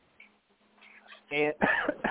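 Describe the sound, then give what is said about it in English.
Throat clearing from a man with something caught in his throat: a few short, harsh rasping bursts after a faint low hum, moderately loud, with no talk over them. “excuse me, guys, I got something in my throat.”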